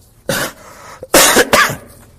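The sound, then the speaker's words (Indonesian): An adult coughs a few times, each cough a loud, harsh, throaty burst with short pauses between them. “Maafkan ya, lagi batuk.”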